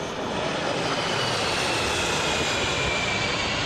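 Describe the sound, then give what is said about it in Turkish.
A CH-47 Chinook firefighting helicopter roars steadily in flight, a dense, even wash of engine and rotor noise without distinct beats, moderately loud and continuous, with no voices. “Türkiye'nin en büyük yangın söndürme helikopteri olan ve bir kere de 10 tona kadar su atabilen CH-47 Chinook tipi helikopter de yangın söndürmek için desteğe geldi.”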